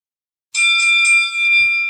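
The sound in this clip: An old-fashioned boxing bell rings as a timer, loud and bright, with a few rapid strikes that merge into one sustained, shimmering metallic tone.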